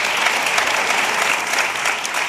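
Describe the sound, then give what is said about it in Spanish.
Audience applause, dense continuous clapping from many hands that stays steady and fairly loud with no voices over it. “Aplauso para los dos.”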